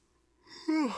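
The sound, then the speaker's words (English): A human yawn: a breathy intake that swells into a drawn-out voiced tone, bending upward and then sliding down before fading, faint at first and then loud, heard alone. “that was a yawn and a half”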